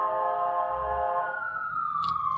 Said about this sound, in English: We'll wait for that siren to pass.